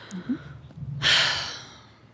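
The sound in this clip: A person draws one deep breath after holding it: a single broad, airy rush swells in suddenly and then fades slowly away, with quiet low murmuring beforehand and no talk.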